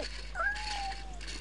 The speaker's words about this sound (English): She lifts up a cat.